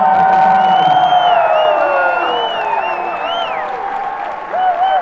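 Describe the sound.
A concert crowd cheers and applauds loudly and continuously, with whoops and high shouts rising above steady clapping and the roar dipping slightly near the end.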